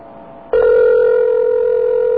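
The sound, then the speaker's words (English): A telephone ring tone sounds on the line after an 800 number is dialed on a rotary phone: a faint low hum, then a loud, steady tone that starts abruptly and holds unbroken to the end. “An Integratel ring. Here we go.”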